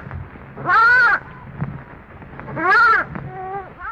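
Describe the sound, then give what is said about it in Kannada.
A lost lamb bleating on a hillside at night: two drawn-out, wavering cries with a slightly bending pitch, separated by a low, murky background. “ಅದು ಏನು? ಅದು ತಪ್ಪಿಸಿಕೊಂಡ ಕುರಿಮರಿಯ ಶಬ್ದವಾಗಿತ್ತು.”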